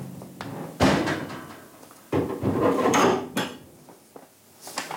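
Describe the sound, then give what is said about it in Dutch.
Wooden shutters of a bird-watching hide being opened, giving a few sharp wooden knocks and thuds with rattling and scraping between them, loud and uneven, with no talk. “Luiken zijn open, je kan echt alle kanten op kijken, hè?”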